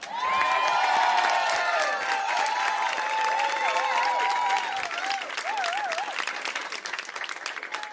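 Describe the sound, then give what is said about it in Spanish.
An audience applauds with loud, dense clapping that runs the full eight seconds, with high wavering cheers mixed in during the first half. “Pido un aplauso muy fuerte”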